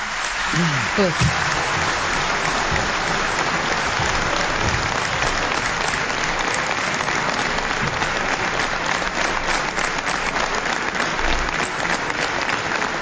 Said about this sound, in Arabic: هذا تصفيق على منح الثقة للحكومة.